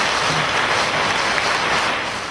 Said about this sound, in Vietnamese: Xin toàn thể hội trường chúc mừng một tràng pháo tay thật nồng nhiệt.